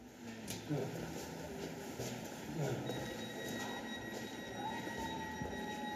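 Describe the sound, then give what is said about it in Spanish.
A Berlin S-Bahn train running toward Tempelhof gives a steady, loud rumble of wheels and carriage noise, with thin high whining tones and faint squeals layered over it throughout. “Este tren solo llega hasta Tempelhof.”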